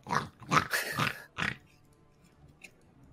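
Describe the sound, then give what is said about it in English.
A wild boar in a video game snorts and grunts, with a quick run of rough, throaty bursts that trail off into quiet. “There's a boar about 100 feet south of us, I think.”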